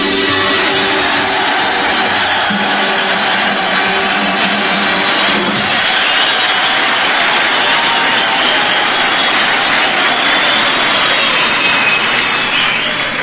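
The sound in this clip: Loud, steady roar of aircraft engines aboard an aircraft carrier three miles out at sea. It is a dense, continuous wash of sound. A deeper hum underneath drops away about halfway through while the roar carries on unbroken.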